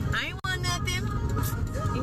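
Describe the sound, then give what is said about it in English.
A car being driven hums with a steady low road rumble while a person talks continuously over the engine noise. “Driving, I better focus and pay attention.”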